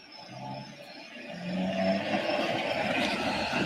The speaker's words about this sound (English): That's the fastest I did. That's 19. It might not seem like a lot, but when you're driving in reverse, it feels fucking fast.